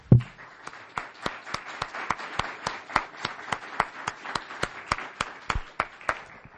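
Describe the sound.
Applause welcoming a speaker at a talk comes as many sharp, separate claps in a steady, even rhythm, opening with one heavier thump and keeping a regular slow beat throughout.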